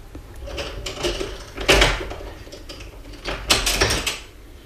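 A door being shut amid soft mechanical rattles and clunks, with two louder knocking thumps standing out over a low background.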